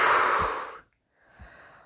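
Breathing out during a breathing exercise with tensed arms: one long, loud, breathy exhale that fades away, a short silence, then a second, softer airy breath.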